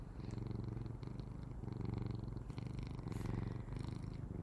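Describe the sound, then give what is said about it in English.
A cat purring: a soft, steady, rhythmic rumble that pulses with each breath. It is faint and continuous, with no other sounds. “I love that you can hear him purring, for those of you that are commenting on that.”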